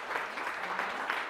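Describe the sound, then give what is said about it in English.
Audience applause: a brief burst of steady, dense clapping at moderate loudness, with no pauses. “everybody give a round of applause”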